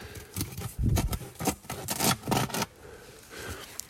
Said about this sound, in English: So there's about, I don't know, 15 or so ribs that you have to cut through to take a whole rib cage.